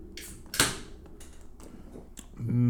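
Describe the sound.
A beer bottle or can cracked open, one sharp pop with a short hiss, then faint clicks and handling noises.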